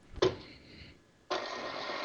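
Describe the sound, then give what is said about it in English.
An electric mixer runs while flour is added to a batter. A short knock and a faint hum come first, then a steady, fairly quiet whirring drone starts abruptly and continues to the end. “So again, I've got the mixer burning.”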